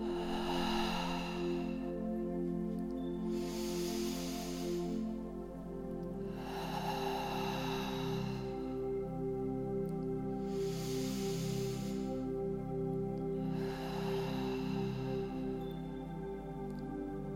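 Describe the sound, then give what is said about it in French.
Slow, deep breaths drawn in through the nose and let out through the mouth during a guided meditation. Several soft, airy swells rise and fade at a steady pace over a quiet, sustained musical drone. “Longue inspire par le nez. Profonde expire par la bouche.”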